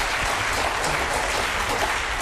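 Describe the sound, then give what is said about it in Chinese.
Audience applause at a Chinese crosstalk comedy performance, a dense, steady roar of many hands clapping that stays at an even loudness throughout. “我要说出来，朋友们一定热情掌声鼓励。”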